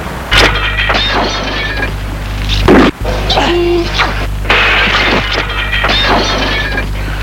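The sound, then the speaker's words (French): A roof tile is struck against a glass window, giving one sharp crash midway through, heard over a steady low hum. “Et Alice se penche et arrive à décrocher une tuile. La lui tend, tiens. Denis prend son élan et en donne un coup sur la vitre.”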